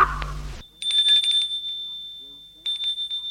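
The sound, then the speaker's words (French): A high, sustained bell rings at a gate after someone steps down from a horse-drawn cab, the bright ringing tone pulsing in two bouts after a brief voice at the start. “Sorti du fiacre, il va sonner au portail.”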